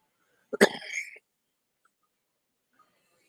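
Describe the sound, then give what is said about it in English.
Coughing from someone whose cough comes from medication rather than illness: a short, harsh burst lasting under a second, with a quick first hack followed by a louder, rougher one, then silence. “and yes, I'm still coughing”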